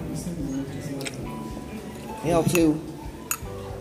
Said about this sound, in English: And I'm using a spoon here,